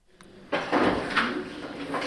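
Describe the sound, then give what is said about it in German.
Office drawers are pulled open and emptied: a brief click, then a longer noisy scraping and rattling slide that holds fairly loud to the end. “Schublade um Schublade räumen die Mitarbeiter aus, ziehen unzählige Namensschilder von diversen Konferenzen aus dem Schrank.”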